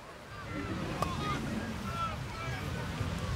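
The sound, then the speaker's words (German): Beach ambience at Timmendorfer Strand: a steady rush of wind buffeting the microphone over a low, rolling surf rumble, continuous and fairly quiet throughout. “Ich bin heute an den Timmendorfer Strand gefahren”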